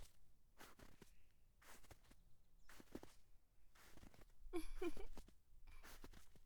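Crunching footsteps on icy, frozen ground, several slow, deliberate steps, each a crisp crackling crunch with quiet gaps between.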